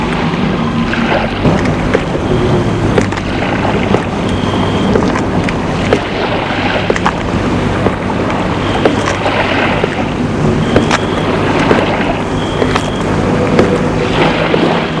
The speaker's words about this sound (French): Bruit de la mer.